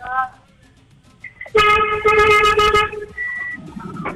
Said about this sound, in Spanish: ¡Toca el pito, mi amor!